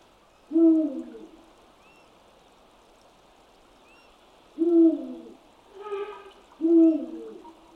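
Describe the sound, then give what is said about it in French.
Deep territorial hoots of a Eurasian eagle-owl in a forest. Three loud, low hoots are spaced several seconds apart, with a softer, shorter call between the last two. “Le premier est le plus grand rapace nocturne de la forêt. Il semble chanter à la lune avec son cri fort et insistant qui peut s'entendre très loin.”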